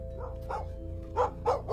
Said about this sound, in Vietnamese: Hiếu giật mình, bởi lẽ nghe tiếng chó cắn ma từ đâu cứ văng vẳng vọng lại